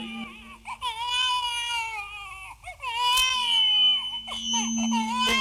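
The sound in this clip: A baby cries in repeated high, wailing bursts with short breaths between them, loud and strained, the cries wavering in pitch.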